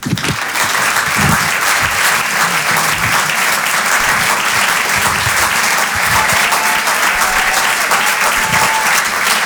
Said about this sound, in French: On peut l'applaudir très très fort lui aussi, Paco Pérez sur Rire et Chanson.